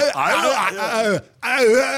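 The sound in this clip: A voice imitates an action hero's strained grunts and groans when in trouble, two drawn-out, wavering vocal bursts separated by a brief pause.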